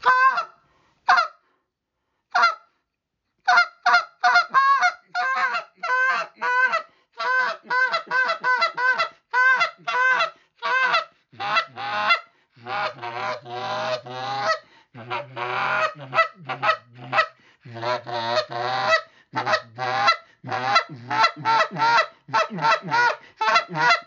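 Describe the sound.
Raspy clucks are blown on a goose call during Canada goose hunting in early September. Many short, loud honking clucks come in quick bursts and choppy runs, turning deeper and grittier in the second half, with no talk.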